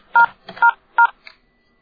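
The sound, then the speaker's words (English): Telephone keypad tones from pressing the star key: three short, loud dual-tone beeps in quick succession, then a fainter blip. “To continue where you left off, dial ***.”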